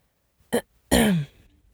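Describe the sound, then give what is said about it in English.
Throat clearing performed as a vocal tic from Tourette's, done in two parts: a short, sharp burst, a brief pause, then a longer, rougher, voiced clearing that falls in pitch as it fades. “But for the record, my vocal tic sounds like this. My tic feels best in two parts, and I have to do both of them.”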